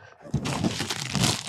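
A crinkly snack bag of cheese popcorn being opened: a sustained burst of loud crackling and crumpling plastic rustles on for over a second.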